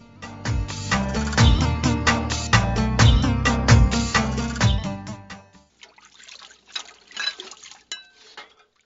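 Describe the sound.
Water gushes and splashes loudly for about five seconds while dishes are washed, then stops, leaving a few faint clinks and taps of dishes.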